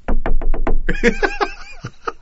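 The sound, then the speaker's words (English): Foley knocking at a door: five quick, evenly spaced knocks, then laughter and voices take over. “So I'll just do some Foley effects. Somebody's at the door.”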